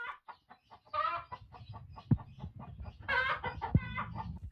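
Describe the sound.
A chicken clucks in a quick series of short, soft clucks, broken by a few louder, drawn-out squawking calls.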